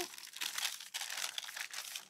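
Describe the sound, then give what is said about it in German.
Baking paper is peeled away from a baked sponge cake, giving a soft, continuous crinkling and crackling rustle with small irregular bursts. Faint, with no talking. “Und wir haben also dann hinterher ein Ergebnis, wo wir das Backpapier schön abziehen können.”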